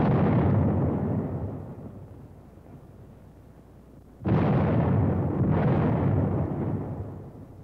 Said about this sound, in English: A squad firing the 37-millimeter anti-tank gun.